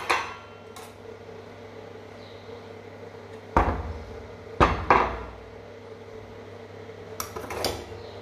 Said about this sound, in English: now I have packed some veggies, and then I'll pack some lentils.